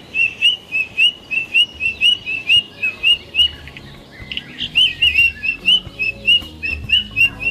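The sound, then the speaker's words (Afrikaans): A white-throated robin-chat sings a run of many bright, high whistled notes in a steady rhythm. After a short break midway, a second run of similar notes follows. “Oor, dis die Witkeel Jan Frederik, is die Afrikaanse naam. En hy klink”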